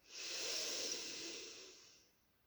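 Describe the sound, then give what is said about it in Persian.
A slow exhale during a breathing exercise: one long, breathy hiss that swells quickly, holds, then gradually fades out over about two seconds. “بازدم.”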